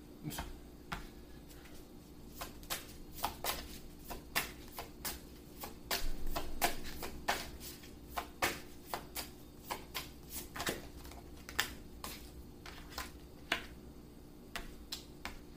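Playing cards are shuffled and dealt in many quiet, sharp snaps and flicks, coming in an uneven rhythm over a soft background hiss.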